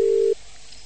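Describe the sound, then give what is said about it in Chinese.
A telephone busy tone after a dropped call: one steady, low electronic beep lasting about a third of a second, then faint hiss. “哎呀，可惜了，电话跳掉了。你再按一下吧，这位听众。”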